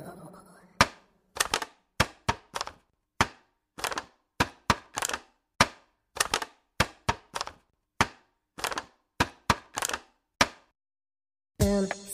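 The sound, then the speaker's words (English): A plastic container that once held strawberries being squished, giving many sharp, crinkly crackles in an irregular, halting rhythm with short pauses between them, ending in a brief noisy burst. “The answer is plastic. That was a plastic container that I think once had strawberries in it.”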